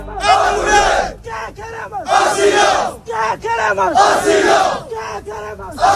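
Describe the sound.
Crowd of Moroccan migrants on hunger strike protesting for asylum at a makeshift shack camp on a beach in Ceuta, chanting loud rhythmic slogans in unison, with repeated shouted phrases and brief gaps between chants.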